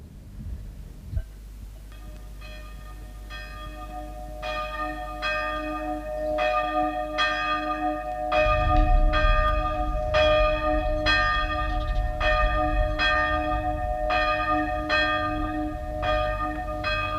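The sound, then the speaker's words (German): Church bells toll for a funeral in a Spanish village, many loud, regular strikes with long shimmering overtones, over a deep rumbling undertone that swells partway through. “Das Geläut dieser Glocken macht mich krank.”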